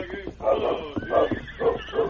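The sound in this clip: A horse neighs as a rider comes into town, giving a few short, bright, harmonic bursts in quick succession.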